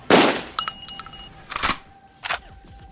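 A gunshot in a shooter video game: one loud, sharp crack at the start, then faint ringing tones and two softer bursts after it.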